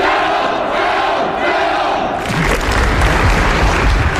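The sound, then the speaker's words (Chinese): A crowd bursts into warm applause and shouts in unison during an inspection tied to Winter Olympics preparations. Loud, chanting voices fill the first half, then a denser wave of clapping and cheering swells in. “大家报以热烈掌声，高呼请总书记放心，我们准备好了。”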